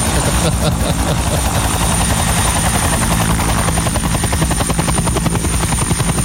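Helicopter taking off, a loud, steady rapid chopping of rotor blades with an engine whine that fills the whole clip without letting up.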